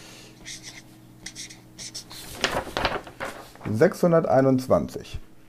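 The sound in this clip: Numbers are written by hand with short, scratchy strokes in quick bursts, followed by a voice speaking.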